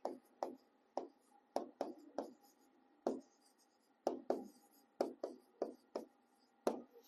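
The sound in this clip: Writing on a screen makes many short, quiet strokes and taps in an irregular rhythm, with pauses between bursts.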